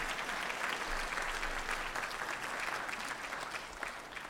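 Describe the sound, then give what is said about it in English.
Audience applause at a talk: a continuous wash of many hands clapping, fairly quiet overall, holding steady before tapering slightly toward the end. “And yeah, let's clap for that.”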